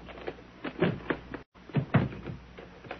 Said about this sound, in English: Get that suitcase she's laying on. Got it. I'll just stretch her out again. There you are, lady. Now open the bag.